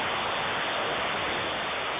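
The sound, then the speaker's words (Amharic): Rain falling, heard during a phone call: a steady, unbroken hiss with no pauses or individual drops standing out. “ይሰማም ግን ዝናብ ነገር አለ።”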